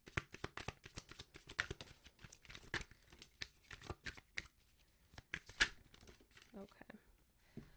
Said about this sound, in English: Let me just get organized because my cards was definitely all over the place here.